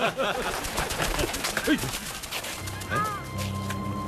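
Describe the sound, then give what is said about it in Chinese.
Migratory birds caught in a net in a reed ditch at a river-mouth wetland reserve, giving scattered honking and cooing calls over dense rustling noise, with a steady low hum in the later part. “这是鸟被网住的声音”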